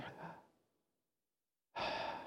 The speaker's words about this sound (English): take a nice deep breath in and a deep breath out. Let's do it again. Let's take a deep breath in.